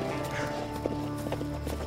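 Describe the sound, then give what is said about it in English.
Horse hooves clip-clopping, faint and irregular, under a steady tonal hum in the background. “All right, well then get your ass on this horse.”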